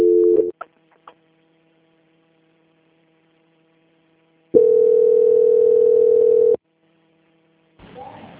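Telephone line tone while a call is transferred to a bank department: a loud, steady tone lasting about two seconds over a faint continuous hum, with brief clicks and noise before and after.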